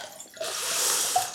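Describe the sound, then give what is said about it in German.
Drinking a glass of water gives a brief, soft watery rush of under a second after a short quiet moment, with a faint splash near the end. “Ich trinke jetzt mal ein Glas Wasser bei dem Thema hier. Ich bin zu ernst hier. Ich muss ein Glas Wasser trinken.”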